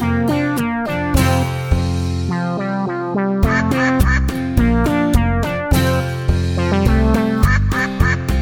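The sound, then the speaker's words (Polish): Duck-like quacking is set in a children's song with bright musical backing. The quacks come as a rapid run of short, repeated, pitched notes in a steady rhythm, and they are loud throughout. “Kwa, kwa, kwa, kwa, kwa, kwa. Taką mowę kaczka ma.”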